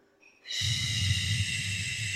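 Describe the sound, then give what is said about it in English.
Breath drawn in through the nose twice during a breathing exercise: a brief, faint sniff, then a longer, louder, airy intake that holds steady to the end. “So do a double inhale through the nose. So it's in, then in again.”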